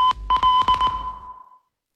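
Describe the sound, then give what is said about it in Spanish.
Home security alarm beeping: a few short, steady, high-pitched electronic beeps in quick succession with sharp clicks between them, ringing on briefly before fading out after about a second and a half. “Ojo con la casa que tienen. ¿Entramos? Ojo con la alarma que tienen. Pues no entramos.”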